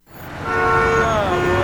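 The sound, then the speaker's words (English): Loud, sustained horn blares over the low rumble of busy traffic on a Nashville city street. It starts abruptly and holds its steady, harmonic tone to the end. “Do you hear that? That's the sound of a city that's back in business.”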